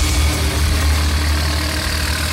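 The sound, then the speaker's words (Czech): Steady, loud engine rumble of a loader driving through a railway station yard in Kamenice nad Lipou, carrying heavy oak railway sleepers on its forks. “V prostoru nádraží u Skokolejky v Kamenici nad Lipou jede nakladač. Na vidlích má těžké dubové pražce.”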